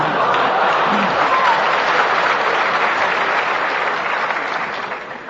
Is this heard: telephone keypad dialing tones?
no